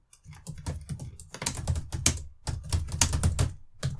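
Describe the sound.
Fast typing on a computer keyboard, many crisp key clicks in quick irregular bursts with short pauses between them, heard alone without speech.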